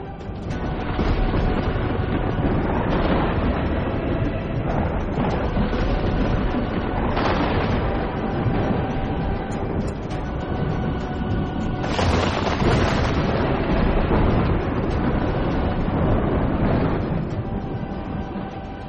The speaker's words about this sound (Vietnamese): Gió bão nổi lên đùng đùng.